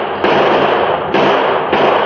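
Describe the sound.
Gunshots in a radio western drama shootout: three loud blasts, each starting abruptly and trailing into a dense, sustained roar of noise that runs on until the next shot.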